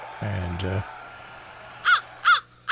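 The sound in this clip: Crow cawing: three harsh, raspy caws in an even rhythm, each loud and brief, rising out of a quiet background after a short low humming sound.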